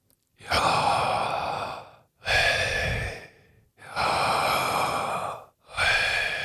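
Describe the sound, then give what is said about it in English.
Four long, loud, airy exhalations breathing out the divine name YHWH through an open mouth with slight tongue movement and no lips or teeth, each about a second and a half long with short gaps between them, heard alone. “I'm going to breathe the name of God. I'm not going to use my lips or teeth as I would in communicating as I am right now. I'm just going to breathe.”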